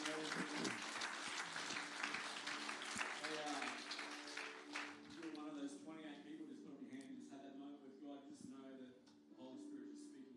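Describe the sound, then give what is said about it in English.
Congregation clapping during a church service, dense and lively for roughly the first five seconds before voices take over and the clapping thins out. “Give God a big clap.”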